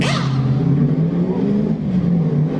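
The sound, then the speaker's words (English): Auto racing pit stop sound effects, with a car engine droning and revving loudly and continuously throughout, its rough low rumble steady with slight surges. “That's pit stop noises. That was pit stop noises.”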